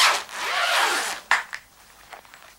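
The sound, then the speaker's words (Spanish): A zipper on a suitcase lid is pulled open in one long, quiet rasping stroke, followed by a few shorter scraping tugs. “Va hacia la maleta y abre la tapa de cremallera.”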